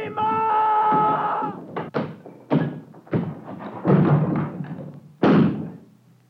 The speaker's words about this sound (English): Smash this door out and get away!